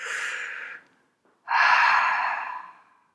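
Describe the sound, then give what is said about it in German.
A deep, airy breath: a shorter breath sound, a brief pause, then a louder, longer inhale that fades out gradually. “wenn ich merke, ich rede gerade wieder schnell, tief einatmen”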